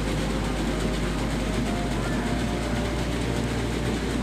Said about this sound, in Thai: เครื่องนี้คือเครื่องตีเกล็ดครับเกล็ดมันถูกขอดด้วยการตีออกตอนนี้นั่นเอง